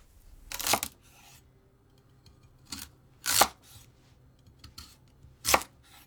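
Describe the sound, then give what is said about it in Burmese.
A knife slices a daikon radish into 1 cm thick rings, giving a few crisp, separate cuts spaced out against a quiet background. “ပထမဆုံးမုံလာဥကို1စင်တီမီတာအထူးအကွင်းလိုက်လှိပါ”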